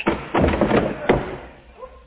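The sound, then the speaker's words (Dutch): A door is yanked open behind a corridor: a heavy thud, then a longer rattling burst and another sharp knock, fading into quiet. “Ik ruk de deur open.”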